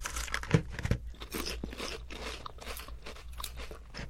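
Crisp crunching of thin crab-flavoured shrimp chips being bitten and chewed. A few sharp, brittle bites open a steady run of dry, crackly chewing.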